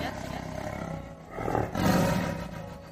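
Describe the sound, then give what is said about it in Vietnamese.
A tiger roar used as a sound effect in a fantasy audio story, a loud, rough, growling roar that swells in two surges over a low rumbling bed. “Hỏa Tinh Man Hổ tính khí táo bạo, đã sớm nhịn không được, gào thét một tiếng, hổ khiếu như sấm, chấn động sơn lâm”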